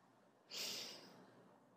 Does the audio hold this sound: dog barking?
no